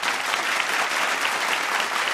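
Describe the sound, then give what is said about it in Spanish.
Brief audience applause, a dense and even clatter of many hands that holds steady throughout, moderately loud and without talking over it. “Un aplauso a eso.”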